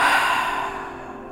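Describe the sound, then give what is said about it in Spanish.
A slow exhale through the mouth during a relaxation breathing exercise: one soft, airy breath that starts fullest and gradually fades over about a second, with no talk. “Exhalo por boca. Una vez más, inhalo. Y al exhalar, suelto.”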